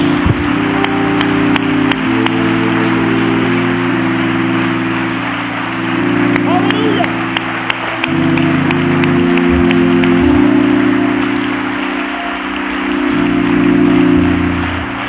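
An audience claps its hands in praise before a sermon, giving steady, sustained clapping over low held instrumental tones that swell and fade in a few places.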